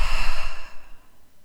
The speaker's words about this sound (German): Atme noch mal tief durch die Nase ein und durch den Mund aus.